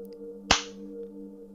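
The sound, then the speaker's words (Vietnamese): A slap across the face lands as one sharp, crisp smack that quickly fades over a faint, steady low hum. “Cao Cường tát cho Thụy một cái rồi hất hàm nói”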